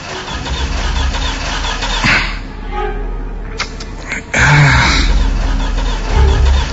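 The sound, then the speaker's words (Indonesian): A car engine is cranked again after a check found no fault, but the car still fails to start. A steady rough rumble jumps abruptly louder partway through into a heavier, sustained low mechanical drone. “Aku coba lagi menstarter mobil ini.”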